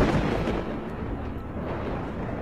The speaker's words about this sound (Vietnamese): Trận đồ bị phá, trên trời sấm sét vẫn cứ vằn vẹn lên đùng đùng.